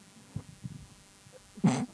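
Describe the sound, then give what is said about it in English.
A single human sneeze comes as a short, fairly loud burst near the end, after a few faint breathy sounds. “I did just sneeze.”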